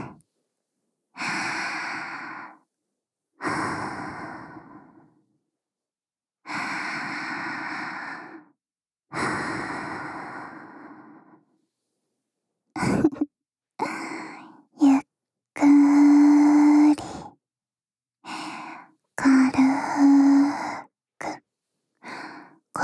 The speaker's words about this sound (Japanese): ほら、私と一緒にゆっくり深呼吸してくださいね。